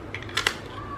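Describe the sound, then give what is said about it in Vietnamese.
A rubber stamp is pressed onto paper, giving two quick, sharp clicks close together in a brief, otherwise quiet moment. “tôi đo này đóng dấu không mà cái này lên được đúng cái ô 60”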